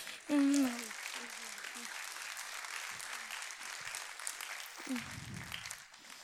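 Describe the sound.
Audience applause fills the room as a steady wash of clapping, with a voice heard briefly at the start and another near the end over the continuous clapping.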